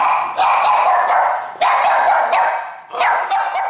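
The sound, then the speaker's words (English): Dogs barking, one playfully and one angrily at a stranger: a few loud, sharp barks come in separate bursts, each followed by a ringing tail, with no voices. “the first dog, Kira, was playing while the second, Lassie, was angrily barking at a stranger”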